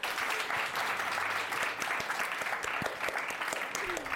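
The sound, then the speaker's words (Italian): Studio audience applauding during a school radio show about cinema. The clapping is dense and steady, with scattered sharper claps standing out, and it stays loud throughout. “Chuck si gira! gira grande applausometro.”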